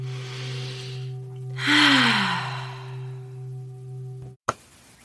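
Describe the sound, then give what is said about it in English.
A deep breath is drawn in: one long, loud, airy inhalation over a steady low hum, followed by quiet and an abrupt click near the end. “Let's all take a breath.”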